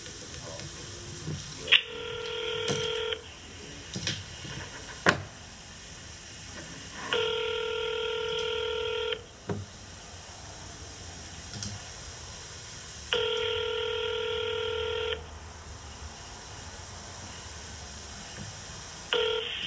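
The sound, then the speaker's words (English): A telephone number being dialed in touch tones, with a few brief beeps, then two long, steady ringback tones of about two seconds each with a pause between, as a call goes through to an office in D.C. “We'll call Mitch McConnell and Rand Paul. Let's see. This is his office in D.C.”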